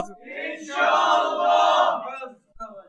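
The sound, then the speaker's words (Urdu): A crowd at an Islamic gathering shouts a religious slogan in unison: one loud, drawn-out chanted cry that swells and then fades, with a brief voice after it. “نیت کیجئے اور اس نیت سے زوردار نعرہ لگائیے انشاءاللہ۔”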